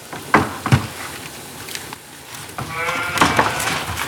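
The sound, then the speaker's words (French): Ewes bleat, a few wavering, nasal calls rising out of a soft rustling background, two close together early on and more near the end. “Je voulais interroger une brebis, mais elles ne sont pas très loquaces, ici. Si tu rentres, elles vont l'être.”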